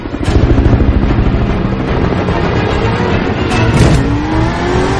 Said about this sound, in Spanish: El piloto vira el helicóptero y Cortés acelera